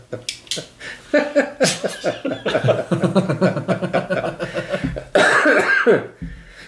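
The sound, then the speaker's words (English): Coughing in a long, loud fit of many harsh bursts in an uneven rhythm, with a short pause before a final strong round of coughs. “And if I'm coughing, I attribute that to the strawberry fields.”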